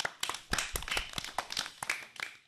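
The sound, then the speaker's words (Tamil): Hand clapping as a small group applauds a child's talk on greenery and tradition: a few sharp, irregular claps in uneven bursts, with short gaps between them. “பசுமையும் பாரம்பரியத்தையும் நாம் அனைவரும் பேணி காப்போம் என்ற உறுதியோடு உங்களுக்கு எங்களது வாழ்த்துக்களை கரவொலி எழுப்பி தெரிவித்துக் கொள்கிறோம்.”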